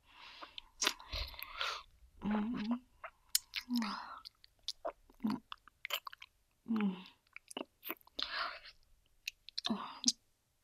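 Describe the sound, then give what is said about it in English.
Wet mouth sounds with spit: soft, sloppy smacks, clicks and chewing-like squelches in short, irregular bursts separated by brief silences, quiet and close. “Get it all wet with my spit.”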